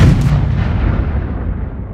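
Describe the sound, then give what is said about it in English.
A heavy, booming explosion serves as a bomb sound effect. The blast hits loud and deep, then rolls into a dense rumble that slowly fades over about two seconds. “Let's drop some bombs.”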